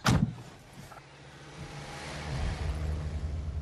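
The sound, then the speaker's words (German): A car engine starting: a brief burst at the start, then a steady low engine hum that slowly swells a little louder. “Ich lege die Hülle auf den Beifahrersitz und starte den Wagen.”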